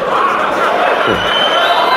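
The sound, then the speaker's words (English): Crowd cheering and chattering at the unveiling of the Tesla Semi all-electric long-haul truck: a loud, steady roar of many voices that holds without a break. “Elon Musk introduces breakthrough all-electric long-haul semi-truck. And the crowd goes wild.”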